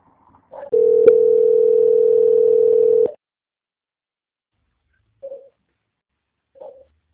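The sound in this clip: Telephone line tone while a caller is held and transferred during a bank customer-service call: one steady, even tone lasting about two and a half seconds, then silence and two short, quiet beeps spaced apart.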